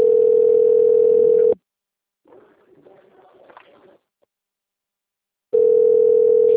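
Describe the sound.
A telephone rings with an incoming call from a bank: two long, loud, flat electronic tones separated by a pause of several seconds, with faint rustling in the gap.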